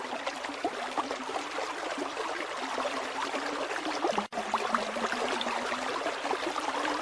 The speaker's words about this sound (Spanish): Después de un largo recorrido en silencio, escuché el rumor de un arroyo.